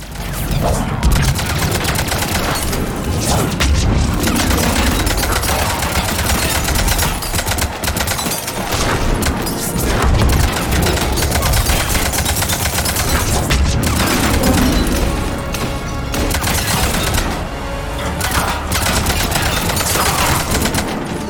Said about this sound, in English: Okay, so we're fighting a bunch of Cerberus operatives, including a tank.